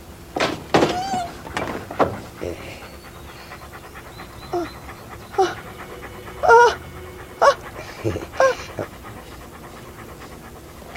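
Dogs panting and whimpering after being bathed and trimmed by a groomer, rapid breathy pants in irregular bursts broken by a few short, higher whining whimpers, with no talking.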